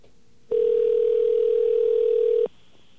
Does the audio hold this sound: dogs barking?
no